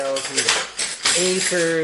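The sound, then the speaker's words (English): A pile of pencils tumbling and scattering, a busy clatter of light wooden knocks and rattles alongside a voice. “Oh no! Pencil avalanche.”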